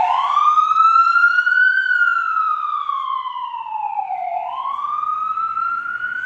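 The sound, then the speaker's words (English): Emergency vehicle siren passing by, a loud continuous wail that slowly rises, falls, and rises again, heard alone without talking. “I was just going to wait for the siren to pass.”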